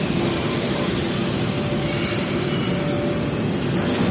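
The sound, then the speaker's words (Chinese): A subway train roars out of a tunnel and into a station, a loud, steady rumble of wheels on rails with a high metallic wheel squeal running through it. “这时，列车呼啸着从隧道出来，停在站台旁。”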